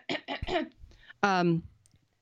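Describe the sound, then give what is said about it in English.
Throat clearing in a few rough, noisy bursts, then a short voiced hum, fairly loud, ending in quiet. “let me clear my throat”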